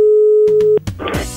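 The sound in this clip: Telephone ringback tone while a call is placed: a steady, mid-pitched tone lasting under a second, then cut off by a few sharp clicks as the line connects, followed by noisy line sound.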